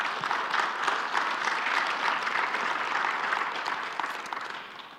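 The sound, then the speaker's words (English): A church audience applauds in a dense, even patter that holds steady for several seconds before thinning slightly near the end. “Why don't you give them a hand?”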